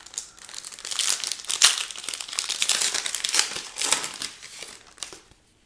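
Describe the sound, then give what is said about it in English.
Crinkling foil wrapper of a Topps Gallery baseball card pack being torn open, with irregular bursts of crackling and rustling over several seconds that stop abruptly at the end. “Now let's get out another pack. We have one more, and it is a Topps Gallery pack. It's got Bryce Harper in the front of the pack.”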